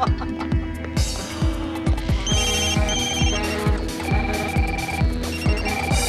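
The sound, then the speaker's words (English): Telephones ringing in a busy office, several loud rings repeating and overlapping in a steady, insistent pattern that continues without pause throughout. “The phones are ringing off the hook.”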